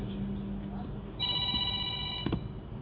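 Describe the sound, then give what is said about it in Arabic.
A telephone rings once in a steady, high, bright burst of about a second beneath continuous speech during a religious lecture. “في تلفون هنا يا رب حد يشوفه”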